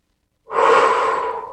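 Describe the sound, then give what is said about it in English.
A single deep breath, loud and airy, begins abruptly and is sustained for about a second before easing slightly. “Deep breath and allowing alignment”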